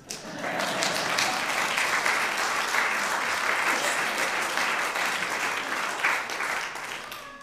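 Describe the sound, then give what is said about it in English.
Audience applause at a stage show greeting a performer introduced as a wise man, a dense, steady clatter of many clapping hands held for several seconds and easing slightly at the end. “please put your hands together for a very rare thing indeed. It's a wise man.”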